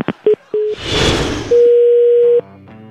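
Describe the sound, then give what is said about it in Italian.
Telephone line tones after a dropped call: short clicks and brief pure beeps, a burst of hissing noise, then a long steady tone near a second long, ending with a softer lower buzzing tone. “è caduta la comunicazione evidentemente”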